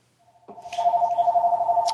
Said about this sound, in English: Yay, another phone call.